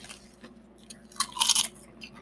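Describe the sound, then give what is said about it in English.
Crunchy chewing of potato chips, with a few soft bites followed by a louder cluster of sharp, crisp crunches in the middle, and no talk. “I taste a plain-ass potato chip right here.”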